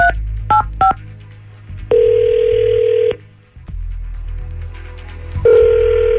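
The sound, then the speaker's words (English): Touch-tone dialing on a telephone: three quick dual-tone key beeps, then a long steady dial-type tone that stops, a short lull with low hum, and the tone starting again at the end. “Cool, I'll dial her up.”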